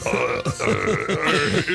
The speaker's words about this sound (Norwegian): Du kan rape den tyske nasjonalsangen.